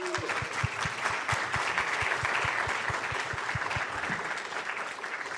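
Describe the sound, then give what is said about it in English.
Audience applause welcoming a guest at a festival, a steady patter of many hands with one sharper, evenly paced clapper standing out, easing slightly toward the end. “So please join me in giving a very warm welcome to Jack Thorne.”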